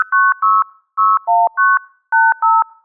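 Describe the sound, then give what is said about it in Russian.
Telephone number dialing tones generated in a sound editor form a string of short, loud dual-pitched beeps in quick clusters, with longer pauses between groups placed where dots were typed. “Послушаем, как зазвучал теперь наш номер телефона.”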